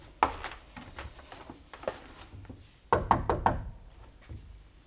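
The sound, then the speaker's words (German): Knocking on a guest room door along a corridor in a rented lodging: a first sharp rap, then a run of lighter knocks, and later a louder burst of several knocks before it fades to quiet. No voices. “Klopfen wir nochmal.”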